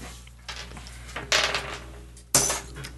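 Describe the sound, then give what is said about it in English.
A purple die and others rolling and clattering on a table during a tabletop role-playing game, heard as a few short, bright rattling bursts separated by quiet gaps. “I need some different dice. All right. How about the purple one? Let's see what they roll.”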